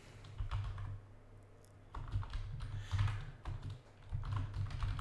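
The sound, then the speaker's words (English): Typing on a computer keyboard, with quiet irregular clicks and clatter of keys in bursts throughout. “You guys are listening to me type. How boring is that?”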